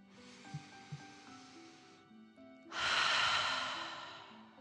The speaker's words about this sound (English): imagining you are breathing fire. Ready? Okay. Deep breath in and out.